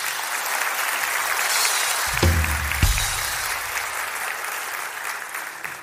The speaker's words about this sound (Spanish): Un aplauso para